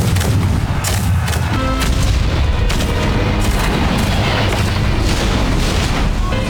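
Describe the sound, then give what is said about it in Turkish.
Artillery cannon fire from Turkish troops holding the fortress at Actium, supporting a fleet in a 16th-century naval battle: a loud, dense, continuous roar of overlapping booms and blasts with no quiet gaps. “Aktium'daki kaleyi tutan Türk askerleri Barbaros Hayreddin Paşa'nın filosunu topçu ateşiyle desteklerken”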